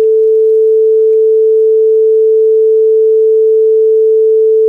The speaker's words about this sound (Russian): Давайте выберем пресет 440. СИС, 440 Гц, СИН. Это звук телефонного гудка. Вот я могу даже вам воспроизвести.